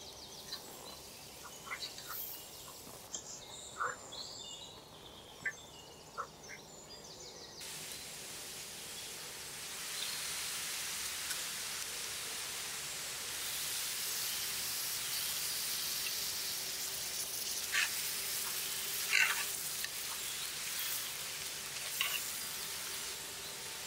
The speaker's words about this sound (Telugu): ఇప్పుడు చింతచిగురు వేసుకుని 1-3 నిమిషాలు బాగా వేగిన తర్వాత మటన్ వేసేసుకుందాం.